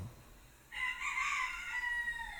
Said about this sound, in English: I don't know if you can hear the roosters. They're annoying, that's why I'm up.